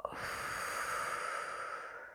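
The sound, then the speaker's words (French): A deep inhalation during a guided breathing exercise: one long, airy breath drawn in steadily for about two seconds, soft and heard alone. “Inspiration pour activer l'énergie.”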